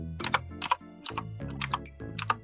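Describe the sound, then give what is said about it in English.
Typing on a computer keyboard at an awkward angle: rapid clicking keystrokes in uneven bursts, a steady clatter that carries on throughout at moderate loudness. “Also, I have to type into my computer really weirdly because my mic is in the way.”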